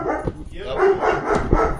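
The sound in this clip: A dog barks in the background, giving a few short, muffled barks and yips over a couple of seconds.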